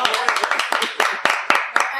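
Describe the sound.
Quick, rhythmic clapping at a steady beat of about four claps per second, loud and crisp, with people talking over it.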